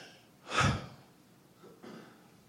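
A person takes a sharp, audible breath before praying: one loud inhale, then a softer and fainter breath near the end, with no talking.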